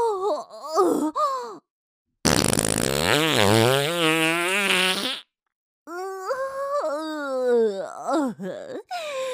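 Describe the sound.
A loud fart of about three seconds, a buzzing, wavering blast between stretches of breathy moaning voice, with short gaps of silence on either side.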